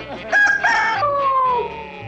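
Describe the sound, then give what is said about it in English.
A rooster crowing: one loud, drawn-out crow that holds a steady pitch and then trails off with a falling, fading tail. “I told Charlie he could come in and crow the names.”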